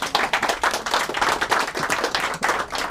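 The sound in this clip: An audience applauds to welcome a poet. The clapping is dense and steady, with no voices over it.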